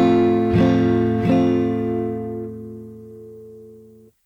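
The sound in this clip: Two strums of an F chord on guitar, with fingers fretting strings 3 and 4 at the second and third frets. The full chord rings out after each strum and slowly decays over several seconds.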